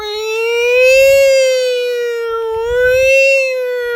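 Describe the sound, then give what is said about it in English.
A voice imitates fire engine sirens, giving two loud, steady wails that each rise and then fall in pitch. “they turned on their sirens and their lights and they were blazing through town”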